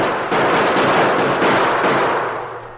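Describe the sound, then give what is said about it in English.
Guns fired into the air by men staging a short mock battle at a stagecoach holdup make a dense, loud burst of continuous crackling gunfire noise that holds steady for nearly three seconds, then tapers. “we fire a few shots in the air. Right. Use your guns, men, and make it sound like a short battle.”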